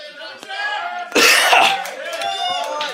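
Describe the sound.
Harsh burst of coughing from someone eating a hot sauce made with Apollo peppers, rising out of ongoing talk and fading back under voices.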